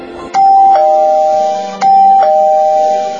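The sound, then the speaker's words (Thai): A front-door doorbell rings two electronic ding-dong chimes in a row, loud and bright, each second tone ringing on briefly before fading. “เสียงออดหน้าประตูดังขึ้น”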